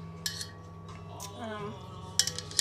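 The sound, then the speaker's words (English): A metal bracelet clinks against a mixing bowl while dough is kneaded by hand. A few light, sharp clinks come at spaced intervals over a soft, steady background. “that's my little bracelet clanging against the thing.”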